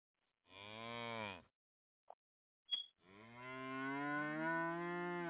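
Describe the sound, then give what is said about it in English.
Cows moo in a cow stable: one drawn-out, low, harmonic moo, a couple of brief sharp sounds, then a second long moo that swells louder and runs to the end. “the other dude chased his ass down in the cow stable, and now the cow's going all berserk and stuff”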